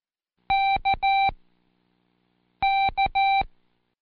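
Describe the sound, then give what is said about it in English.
A Morse code keyer beeps out the letter K, standing for the word kangaroo, twice: two identical groups of steady, mid-high tones, each long, short, long, separated by about a second of silence. “Close your eyes and picture the kangaroo as I sound the keyer.”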